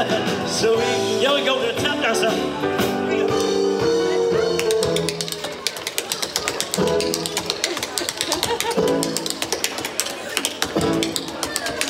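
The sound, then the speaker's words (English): Tap dancing on stage fills the second half with rapid, crisp clicking steps in quick bursts, played alongside loud music throughout. “After the tap dancing, well, the crowd went wild for Amarillo.”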